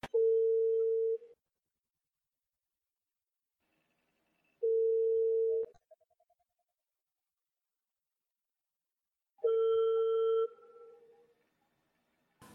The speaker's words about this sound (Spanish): Bueno, entonces deja marcar.